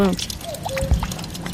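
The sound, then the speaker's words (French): Water from a fountain pours into a small pond in the forest on the heights above Neuchâtel, giving a steady splashing, trickling wash with a brief voice at the very start. “Dans la forêt, sur les hauts de la ville de Neuchâtel, un petit étang alimenté par une fontaine.”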